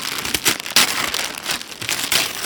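Wrapping paper crinkles and crumples as a present, a G.I. Joe all-terrain attack vehicle toy, is unwrapped. The rustling comes in a few loud bursts over a steady papery crackle.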